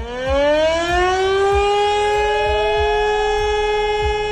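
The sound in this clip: A civil defense warning siren sounds for a nationwide warning day, its wail climbing steadily in pitch and then holding a loud, sustained high tone, with faint regular low thumps beneath.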